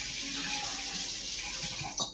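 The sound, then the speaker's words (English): Forks being rinsed under running tap water, a steady even hiss of the flowing stream that swells into a brief louder splash at the very end. “I'm going to get some fresh forks. Just wash them off at this point.”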